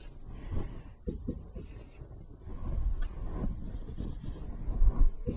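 Handwritten strokes as a cost equation is written out, linear term first, in a marginal cost lesson: continuous scratchy scraping that swells and fades, with no talk.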